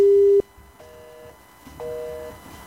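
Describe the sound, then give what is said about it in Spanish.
Telephone busy signal heard while a call is placed: a loud steady tone cuts off, then two shorter repeated beep tones follow. No voices are heard. “Voy a hacer una llamada desde acá a Josefa, que está intentando comunicarse y no ha podido.”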